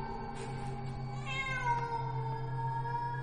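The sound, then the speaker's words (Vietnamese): A cat meows in the still of the night, a drawn-out, loud, wavering cry with a steady low hum underneath. “Lại là nó, lại là tiếng của con mèo kêu lên.”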